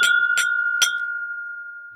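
Glasses clinking in a toast: three bright, sharp clinks in quick succession, followed by a clear ringing tone that lingers and slowly fades.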